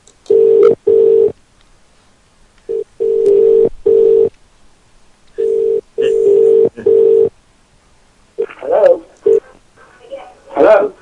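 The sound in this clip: Telephone ringback tone while a caller waits for someone to pick up: repeated steady mid-pitched tone bursts separated by short gaps, followed near the end by voices talking.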